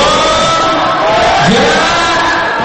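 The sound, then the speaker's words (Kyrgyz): A concert audience cheers and applauds as an Uzbek pop singer takes the stage at his solo concert in Bishkek. The roar of voices and clapping stays dense, loud and steady throughout. “Бажалар командасынын солисти Жахангир Пазылжановдун сахнага чыгышы күйөрмандарынын залды жаңырта кол чабуу сүрөндөрү менен коштолду.”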